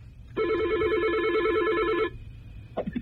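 A telephone rings for a listener's call into a radio show: one long warbling electronic ring burst, followed by a short gap and the start of a second ring.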